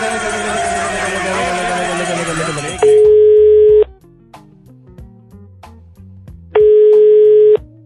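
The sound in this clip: A telephone call's tone comes in two loud, steady beeps of about a second each, separated by a pause. Dense, noisy voices come before them, and soft background music plays under the gap.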